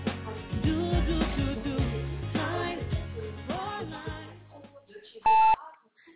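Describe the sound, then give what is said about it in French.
An answering machine gives a single loud, steady electronic beep, signalling the caller to leave a message. It follows a recorded spoken greeting. “Merci de laisser un message après le signal sonore avec vos coordonnées et l'objet de votre appel.”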